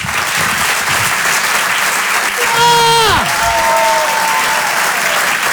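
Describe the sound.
An audience applauds to welcome a comedian on stage, a dense, loud and steady clatter of clapping, with a brief falling whistle-like tone sliding through it midway.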